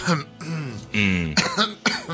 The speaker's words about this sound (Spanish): Me ha cogido una tos repentina. Una tos.